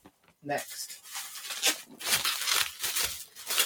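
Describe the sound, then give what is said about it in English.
Bubble wrap being handled, giving bursts of crinkly, crackling rustles that come in uneven waves over several seconds. “Again, apologies for the bubble wrap noise.”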